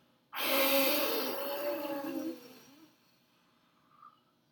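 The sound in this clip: One long, forceful breath is blown out through the mouth during a guided breathing exercise, like blowing out birthday candles. It is a loud, airy rush that starts abruptly, lasts about two seconds and then fades into quiet.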